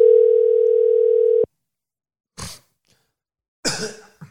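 Telephone tone on an outgoing call: one steady, loud, unbroken tone for about a second and a half that cuts off sharply, followed by silence and then two short coughs or throat-clearing sounds.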